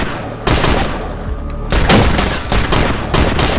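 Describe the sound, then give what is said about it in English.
Gunshots aimed at police ring out in a Chicago police TV drama scene, a few sharp, loud cracks spread over a noisy, busy background. “we got shots fired at the police.”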